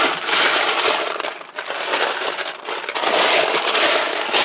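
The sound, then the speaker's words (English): Plastic Lego bricks are rummaged through by hand, making a loud, continuous clatter of small pieces knocking and shifting against each other. “That was the sound of me searching for Legos.”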